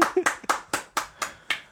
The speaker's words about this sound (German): Wow, Applaus!